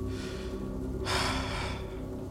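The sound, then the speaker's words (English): One deep breath drawn in, a breathy rush lasting under a second, set over a steady low hum. “I take a deep breath.”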